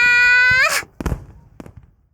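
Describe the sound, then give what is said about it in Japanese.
Fireworks going off at a festival: a loud, rising whistle ends in a heavy burst, then a smaller crack follows and the sound fades out in light crackling. “何？今の大きい音。 あれは花火だぜ。”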